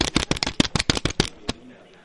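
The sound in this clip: Cash banknotes, English money, rustled and flicked: a rapid run of many crisp, papery snaps in quick succession that stops abruptly, leaving faint quiet.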